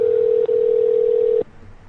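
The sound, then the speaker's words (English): A telephone dial tone plays while a number is being called: a single steady, loud mid-pitched tone with one brief dropout early on. It cuts off abruptly, leaving only a faint low hum. “So I'm calling their other number now. They have two phone numbers.”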